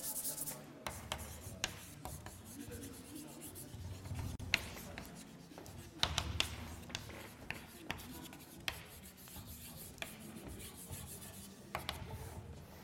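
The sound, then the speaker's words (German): Handwriting as words are written out: faint, scratchy strokes and rubbing with sharp little taps scattered irregularly, alone and quiet throughout. “Da schreiben wir Methoden.”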